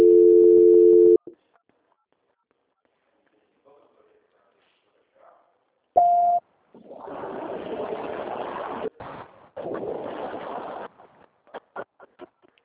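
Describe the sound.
Telephone line tone during a call transfer: a steady tone for about a second, then near silence, a short beep, and stretches of hissy, muffled line noise broken by clicks.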